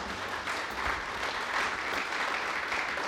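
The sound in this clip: Studio audience applause for a woman being thanked for her social media work, an even wash of clapping held steadily at moderate volume throughout.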